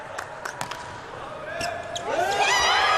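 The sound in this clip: Volleyball serve scoring an ace in a match between Italy and Brazil, the world's top two teams. A few sharp ball strikes ring out, then crowd noise swells loudly toward the end.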